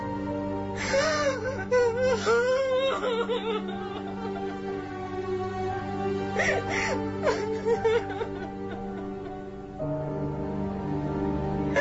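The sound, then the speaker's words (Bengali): A woman crying, a mother weeping in grief: drawn-out wailing sobs in two main bursts near the start and again midway, over a steady tonal background. “Dyer লেখা পড়ে চাঁদনির মা ঝরঝর করে কাঁদতে লাগলেন।”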